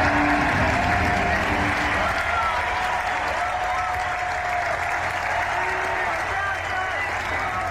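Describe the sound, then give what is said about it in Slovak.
Stadium spectators applauding at a national-team ice hockey farewell game in May 2011: a dense, steady roar of clapping that holds at an even loudness throughout, with crowd voices blended into it. “Takto diváci tlieskali a skandovali v máji 2011, keď odohral rozlúčkový zápas v repre.”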